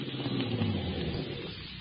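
Car engine as a vehicle pulls up near an old church where another car has just flashed its headlights: a low, steady engine rumble with a soft, even hum that holds for a couple of seconds at moderate-to-faint level.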